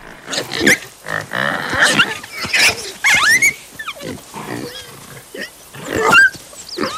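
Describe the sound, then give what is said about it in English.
A small wild pig warning off an approaching lion cub with a string of loud, irregular grunts and shrill squeals, some cries sliding sharply upward in pitch. “The two animals eye each other, but when the cub gets too close, the pig warns it off.”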